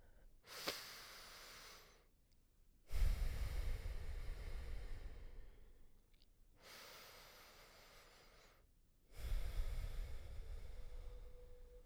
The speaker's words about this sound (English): Let's begin with two deep breaths.